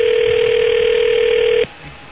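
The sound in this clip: A steady telephone dial tone holds at one unchanging mid pitch, loud and alone, then cuts off abruptly after about a second and a half, leaving near silence.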